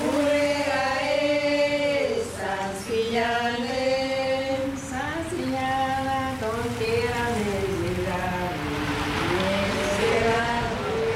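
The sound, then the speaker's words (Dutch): Scooters and cars pass along a street on Bonaire, making a continuous buzzing engine drone. The droning pitch shifts up and down as the vehicles speed up and slow down. “je ziet hier mensen lopen, er rijden scooters langs, auto's, er worden foto's gemaakt.”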